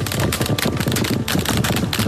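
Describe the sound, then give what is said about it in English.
Gunfire from Israeli soldiers, caught on a phone video during an attack on a clearly marked ambulance convoy of rescue workers and medics: dense, loud rapid-fire shots run almost without pause from start to end. “Israeli soldiers open fire and start to kill the rescue workers.”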